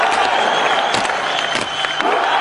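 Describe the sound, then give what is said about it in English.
Scottish Highland clansmen cheer loudly in a dense, continuous roar of shouting mixed with clapping that holds a steady level throughout. “Charles read out a message from his father James promising a Scottish Parliament, lower taxes and independence from England. The clansmen loudly cheered.”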